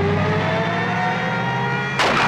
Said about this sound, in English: The hearse accelerates.